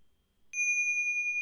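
A single clear bell chime rings out during a mindful-eating exercise. After a near-silent start, it is struck once and holds a bright, steady, high tone with a faint pulsing shimmer, and another strike begins right at the end.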